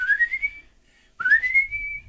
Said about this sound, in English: You even whistle.